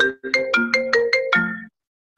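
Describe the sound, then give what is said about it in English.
Mobile phone ringtone plays a quick electronic melody of about seven bright notes. The last note is held longer before it cuts off into silence. “Sorry, that's my phone going.”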